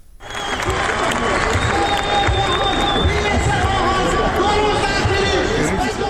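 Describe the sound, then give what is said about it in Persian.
Isfahan citizens protest while camped on the dry, parched Zayandeh Rud riverbed. The crowd makes dense, steady noise of clapping mixed with shouting and babbling voices that carries on without a break. “این صدای شهروندان اصفهانی است که بر بستر تفتیده و خشک زاینده رود خیمه زدند.”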